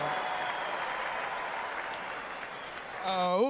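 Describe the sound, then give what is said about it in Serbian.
Audience applause for an orchestra at a kafana evening, steady clapping for about three seconds before a single voice briefly breaks in at the end. “Može li jedan najveći aplauz za orkestar Ace Stojneva? Jače, jače, jače!”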